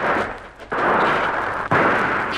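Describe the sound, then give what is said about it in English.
Gunfire rings out from the trees in a radio drama adventure: two sharp shots about a second apart, each followed by a loud, rumbling roar that fills the scene. “They've seen us. Yes. Firing from the trees down there.”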